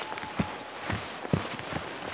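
Hurried footsteps cross tree roots in a spruce forest: a few soft, uneven thuds at a brisk pace.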